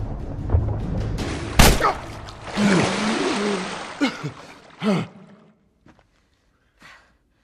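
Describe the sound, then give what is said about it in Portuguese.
A sharp, loud gunshot in a video game, a single blast early on, followed by gasping, strained vocal sounds and breathy noise that fade to near silence. “Nossa, eu atirei mesmo no cara, né?”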